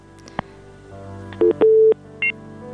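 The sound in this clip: Telephone dialing tones on a radio call-in line: a small click, then three pure beeps, the middle one held longer than the other two.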